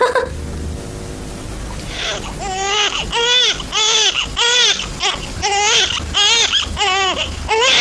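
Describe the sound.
A baby cries in a room, a run of rhythmic, high wailing sobs that start after a short lead-in and repeat in steady pulses.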